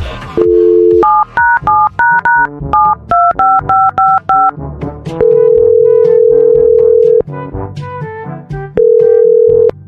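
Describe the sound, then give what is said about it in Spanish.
Touch-tone keypad tones as a phone number is dialed for a call: a long opening tone, then a quick run of many short dual-pitched beeps, a few longer sustained tones later, loud and clear with no talk. “Voy a marcar.”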